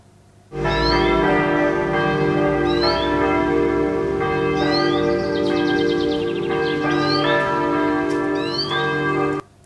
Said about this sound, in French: près d'une église, il y avait des cloches, et puis il y avait des oiseaux, on les entendait bien.